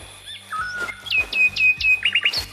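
Birds singing in the Chouf area, where the springs have dried up in a drought: many bright chirps and whistled notes, with quick repeated trills near the end.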